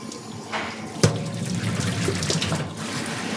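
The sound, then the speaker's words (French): Running tap water splashes in a kitchen sink as root vegetables and herbs are washed before cooking. The rushing sound is steady and fairly loud, with one sharp knock about a third of the way through. No one speaks. “Une fois que tous mes autres produits sont préparés, je vais commencer à laver mes légumes.”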